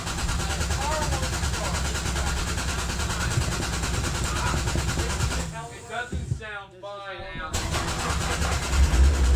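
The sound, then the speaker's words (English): A car engine that won't start: steady rumbling engine noise runs throughout, broken by a ragged stretch near the end, with voices present. “Would you want to call AAA about your car? You know, I think I'll just walk. No, I felt bad. You know when you see someone, even though you're in an argument, but their car won't start,”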